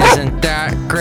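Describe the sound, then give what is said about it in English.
A Boxer dog gives a few short, tonal barks in quick succession, the first the loudest, while a person speaks briefly over them. “And Basil barks and sounds a little like this.”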